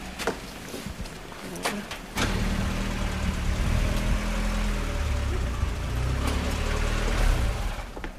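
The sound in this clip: Car engine as a car pulls up closer, a steady mid-pitched drone that steps up in loudness early on and then holds an even, continuous hum.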